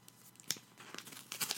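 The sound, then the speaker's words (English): An envelope holding a letter is torn open, giving a few quick, faint rips and crinkles of paper with no other sound. “There's the sound of the envelope opening.”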